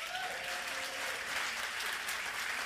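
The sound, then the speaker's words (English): Dense, steady applause from a church audience welcoming a farmer as a guest, even and sustained throughout with no voices on top. “So would you put your hands together and welcome Farmer Phil.”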